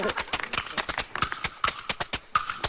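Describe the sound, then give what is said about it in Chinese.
Imitated horse hoofbeats in a Chinese folk performance, portraying the heroine Mu Guiying riding up on horseback. Many sharp, rhythmic clops come in a quick galloping pattern. “穆桂英骑着马过来了。”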